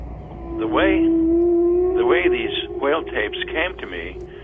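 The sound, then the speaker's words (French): Recorded humpback whale song: a long steady tone with moaning calls that sweep up and down in pitch, followed by several shorter wavering cries, loud and resonant. “il suffit de mettre tes oreilles dans l'eau pour entendre des baleines proches ou lointaines. Mais lui, ses premières écoutes ont été quand ces enregistrements lui sont parvenus.”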